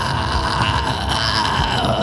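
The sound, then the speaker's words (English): A raspy, gritty vocal sound from someone straining their throat without proper technique: one loud, rough, growling sustained tone lasting about two seconds, heard alone. “if somebody that maybe didn't know what they were doing wanted to be raspy and gritty, they might make a sound like,”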